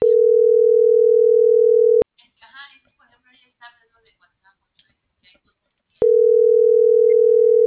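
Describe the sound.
A steady, loud telephone line tone plays for about two seconds and stops while a voice speaks faintly. The same tone then returns ahead of a voicemail service.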